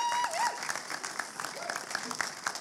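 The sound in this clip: A church audience applauds to welcome a speaker, making a fairly soft, steady patter of many hands clapping at once.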